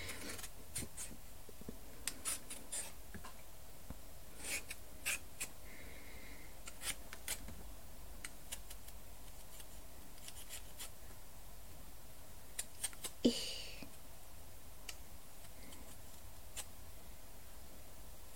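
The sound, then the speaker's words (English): Oddly shaped sweet potatoes being peeled, scraped in scattered short dry strokes that are faint and irregular, with quiet stretches between them. “It's always such a pain with these sweet potatoes that are like a weird shape. So hard to peel them.”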